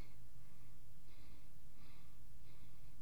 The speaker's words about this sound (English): I'm just gonna lay here and breathe for a while.